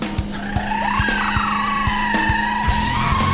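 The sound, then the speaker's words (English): A car drives along with a steady engine drone and a higher whine that wavers in pitch, over regular low thumps. “Now, Carlos sits in the back of the vehicle as they drive.”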